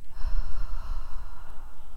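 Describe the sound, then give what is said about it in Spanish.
Slow out-breath during guided meditation, heard as a soft, steady, airy rush of air. It lasts the whole clip, with a faint low rumble underneath. “Inhala y exhala. Inhala. Y al exhalar,”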